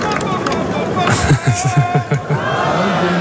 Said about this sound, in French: Et qui achève cette fin sur une note très forte. Et le public répond évidemment.